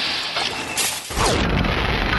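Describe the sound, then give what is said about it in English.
A pulse grenade explodes in a video game: a dense hiss of noise swells into a deep, loud, rumbling boom midway through, and the boom keeps roaring to the end. “Let's try a pulse grenade with this thing.”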